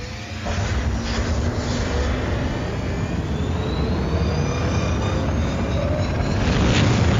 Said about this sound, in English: You can blast off east or west. What now, Captain? Blast off east.